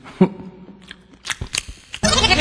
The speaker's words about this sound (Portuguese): Eu tô comendo peixinho frito aqui.